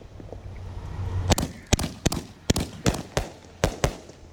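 A 25-shot firework cake fires shells that burst in the sky, giving a rapid, fairly regular series of many sharp, loud bangs after a low rumble at the start.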